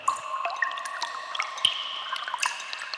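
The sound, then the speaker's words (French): Water drips and trickles down damp cave walls, with a few scattered plinking drops over a steady, faint wet trickle. “Dans la grotte, il fait humide. Les parois de la grotte ruissellent.”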